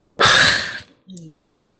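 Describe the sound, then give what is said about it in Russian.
A person's yawn: one long, breathy, loud exhale that fades out, followed after a brief pause by a short, soft voiced sound. “Я хочу зевать.”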